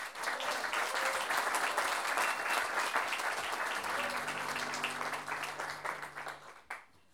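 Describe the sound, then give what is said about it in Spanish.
Audience applause at a payador improvised-verse tournament, a dense steady clapping crowd that holds loud for several seconds, then thins into scattered claps and fades out, with a faint low tone underneath near the end. “los Valladores del Puerto, quienes por lo menos se merecen un gran aplauso de ustedes.”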